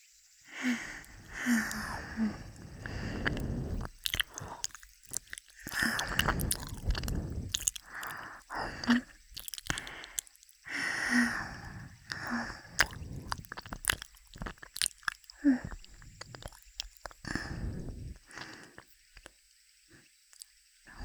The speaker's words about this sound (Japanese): もう少し強めに噛むね。